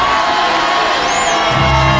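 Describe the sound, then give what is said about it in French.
An audience at a comedy festival show cheers and shouts for a performer. A dense, loud wash of crowd noise with whoops holds steady from start to finish. “On peut l'applaudir, ce fameux Rinaldi là.”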